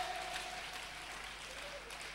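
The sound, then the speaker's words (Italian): Congregation applauding in a church, a dense, steady wash of clapping that holds at an even, fairly quiet level throughout without clear breaks. “E noi applaudiamo a Gesù che è stato manifestato in carne.”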